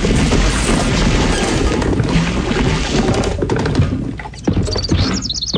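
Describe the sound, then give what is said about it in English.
A U-Haul trailer explodes as it hits a pond, a loud, sustained roaring crash with a brief dip, then a sharp burst and a few faint chirps near the end. “Hey, buddy, I think your U-Haul exploded when it hit the pond.”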